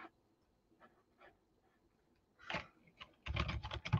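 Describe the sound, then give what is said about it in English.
Computer keyboard typing while code is entered into a program file: faint scattered clicks, then a dense, quick run of keystrokes that grows louder toward the end. “So I'm going to type in some of the things in this program that I've been typing in the REPL.”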